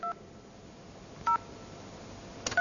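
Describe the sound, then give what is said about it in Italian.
DTMF keypad tones as a telephone number is dialed: a few short, clean electronic beeps separated by pauses, over a faint steady hiss. “Questo dovrebbe chiamare Alberto veramente.”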